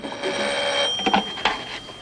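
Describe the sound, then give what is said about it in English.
A telephone ringing in a bedroom: a bright, bell-like ring with a couple of short, louder bursts over a faint, steady high tone. “He makes a hasty retreat back under the bed as the inspector, with his toothbrush in his mouth, comes out of the bathroom to answer the phone.”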